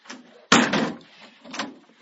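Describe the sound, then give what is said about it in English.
A door being opened, heard as a sudden scraping, rustling burst followed by softer handling noise that fades, with a fainter brush of sound shortly after; fairly quiet overall. “Let me get this door over here.”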